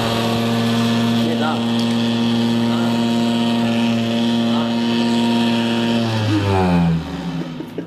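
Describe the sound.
A motor-driven vibration machine with a seat and attachments, switched on with its speed dial turned up, gives a loud, steady droning hum rich in harmonics. The pitch wavers briefly, then shifts near the end before the drone drops lower.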